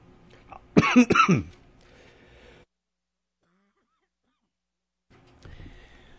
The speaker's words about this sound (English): Sorry, folks, my allergies are killing me. And so I last about an hour before the coughing begins.